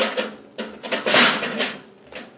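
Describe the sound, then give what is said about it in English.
A spaceship hatch is forced open with rough scraping and grinding that comes in several uneven bursts, rising and falling in loudness, with no voices. “Let's get the hatch open. Focus your atomo light over here, Hap.”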